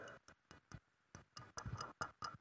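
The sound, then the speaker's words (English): A tomato-shaped kitchen timer ticks quickly and faintly, with many sharp clicks in a slightly uneven rhythm and no other sound. “Why have I got a timer that I use in a kitchen as a clue?”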